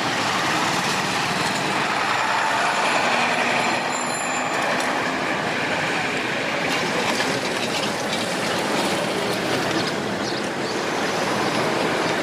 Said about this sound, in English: Here we're driving with them. We're going out now out to the to Joel's house to see, just to visit out there, and this is the town of Kasuma.